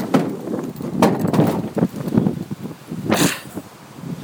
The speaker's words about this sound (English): Oh, this is kind of a disorienting wind in a lot of ways.